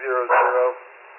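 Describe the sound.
A dog barks over a narrow-band police dispatch radio transmission, a brief burst of barking mixed with a man's voice, muffled and band-limited, fading to hiss.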